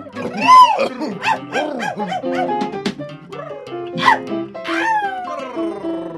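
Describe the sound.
Dogs barking along a walk past piles of trash: a loud, continuous run of many overlapping barks and yips from more than one dog, with no pause.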